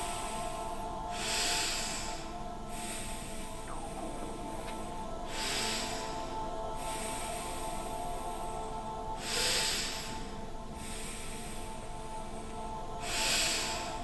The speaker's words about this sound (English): Now keep on breathing.